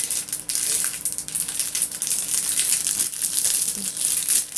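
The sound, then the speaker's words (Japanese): Plastic packaging crinkles and crackles as a product is torn open, a 40 g item with a 5 cm long nozzle, the rustling steady and fairly loud throughout with no talking. “それでは早速開封の儀を。”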